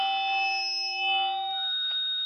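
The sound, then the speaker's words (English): Obnoxious audio feedback squeal: several sustained high-pitched tones ring loudly and steadily for about two seconds, with no voices. “All right, now I asked the guys to put that obnoxious noise in there because, one, it's kind of fun to shock you with an obnoxious noise. But number two, that sound is never fun to hear. Will Rutter's shaking his head behind the glass. He's a musician. That feedback sound always is unpleasant.”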